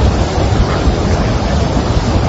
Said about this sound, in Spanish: la fuerza del agua, ¿eh? La fuerza del agua, esa pasarela de la Garganta del Diablo, transitable.